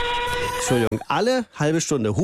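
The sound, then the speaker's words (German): The horn of an RB60 regional train sounds at an unguarded level crossing in Bad Freienwalde. It is a steady, sustained tone lasting under a second, cut off abruptly and followed by talking. “Ja, die Züge des RB60 müssen an einem unbeschrankten Bahnübergang regelmäßig hupen, auch in der Nacht.”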